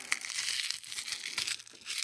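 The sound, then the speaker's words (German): Plastic wrapper crinkling as a fortune cookie is unwrapped: a continuous crackly rustle with a few sharper crackles throughout, fairly quiet and with no voices. “Jo, und den Glückskeks, den habe ich hier und jetzt wieder mal ausgepackt.”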